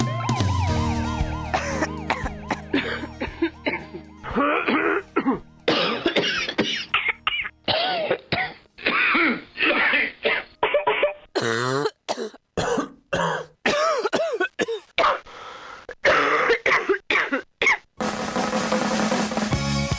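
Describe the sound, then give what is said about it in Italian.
Many coughs of varied character follow one another in quick succession. They come as short, loud, harsh bursts separated by brief gaps, with no speech. “Tosse, non ce n'è una sola, ne abbiamo appena sentito una dimostrazione”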